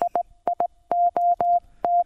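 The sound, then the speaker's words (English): Car-horn-style Morse code beeps tap out the word idiot: a steady electronic tone in short and long pulses, with quick dots first and then a run of longer dashes, clear and alone. “Do you remember all that? That's idiot, by the way. That's Morse code for it.”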